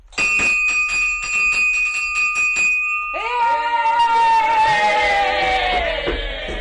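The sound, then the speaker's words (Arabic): A school bell is rung to end a class: a rapid, repeated metallic ringing with bright overtones, followed by louder clanging strikes whose tones ring on and slowly fade. “الحصة خلصت، أما أضرب الجرس بقى.”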